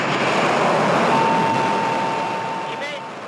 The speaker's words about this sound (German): Um kurz vor 17.30 Uhr Ortszeit hob die Trägerrakete mit der Mondsonde Chang'e 6 von Chinas Raumfahrtzentrum Wenchang auf der südlichen Insel Hainan ab.